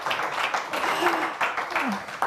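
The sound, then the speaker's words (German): Audience applause as a guest walks up to the front: continuous clapping with pulsing swells, mixed with a few whoops and cheering voices. “Komm zu uns nach vorne und der Applaus hält, bis du die Schlange durchläufst.”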